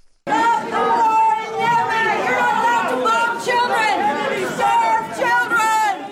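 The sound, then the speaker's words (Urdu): Women chant protest slogans against Saudi bombing in Yemen at a Saudi-backed cultural exhibition at the Kennedy Center in Washington, with many loud voices overlapping in a continuous crowd. “یہ نعرے بازی Washington کے معروف Kennedy centre میں منعقدہ ایک ثقافتی نمائش میں کی جا رہی ہے”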